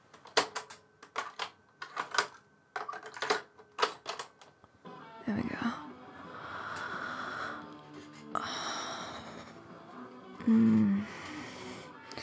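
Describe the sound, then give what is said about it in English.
Sharp clicks and clatter of a cassette tape being flipped over, a quick series of separate clicks followed by a steady hiss. “Hang on, baby, I'm gonna flip this tape.”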